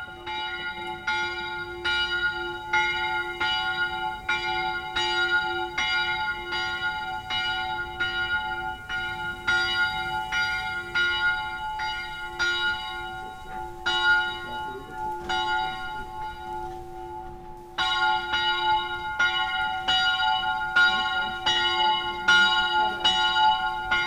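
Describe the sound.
Bells ring with a long reverberating decay, striking many times in a fast, regular pattern. The bright tones overlap as they ring on, then pause briefly before resuming at the same steady pace.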